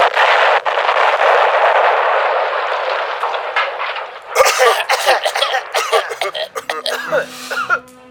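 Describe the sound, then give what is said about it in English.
A cartoon death ray fires and malfunctions after cheese has been put in it: a loud, sustained hissing blast lasts about four seconds, then breaks into sputtering, crackling bursts, with voices heard toward the end. “Pharos, fire the death ray now! Firing! Oh no! Something went wrong!”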